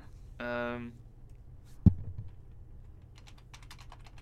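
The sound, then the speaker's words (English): Typing on a computer keyboard: a quick run of light, crisp key clicks in an uneven patter toward the end, after a short spoken phrase and a single dull thump. “I typed in A-L and then it came up in that spelling.”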